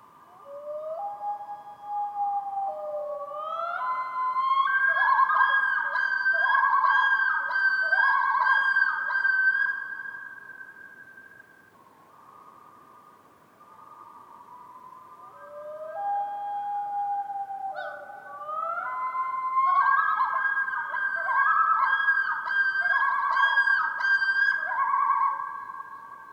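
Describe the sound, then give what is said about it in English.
A common loon gives a faint, haunting wail in two long phrases separated by a brief pause. Each phrase holds and slides between sustained tones, with a rising, yodel-like shift. “And it's the sound of a common loon.”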